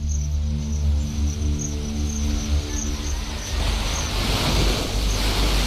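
Waves washing onto the seashore of a flat island, a steady, loud rushing wash that keeps going throughout with no talk.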